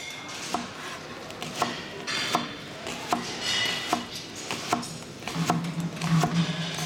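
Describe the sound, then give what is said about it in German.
Onions are chopped with a knife in a steady run of crisp, evenly spaced strikes, moderately loud, with no talking. “Mit Zwiebelhacken. Das kannst du doch. Sicher. Dann zeig mal.”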